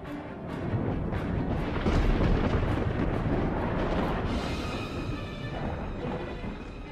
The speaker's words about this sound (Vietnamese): Bầu trời lúc ấy bỗng nhiên ầm ầm nổi giông bão sấm chớp, rồi như muốn chuyển mưa.